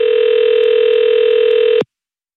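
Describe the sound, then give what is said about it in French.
Ringback tone of a call placed to someone's telephone: a single steady, mid-pitched electronic tone held for nearly two seconds, then cutting off abruptly into silence. “On fait sonner son téléphone, elle est à Mont-de-Marsan”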